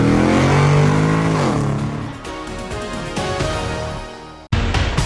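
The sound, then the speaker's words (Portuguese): A car engine roars as it is put into first gear and accelerates, a loud, continuous revving drone with shifting pitch that breaks off for an instant near the end before resuming. “engata a primeira e vambora, acelera!”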